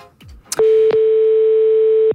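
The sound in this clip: Telephone line tone on a call placed to a random listener for a prize draw. It is one loud, steady electronic beep lasting well over a second, with a very brief break just after it starts, heard alone.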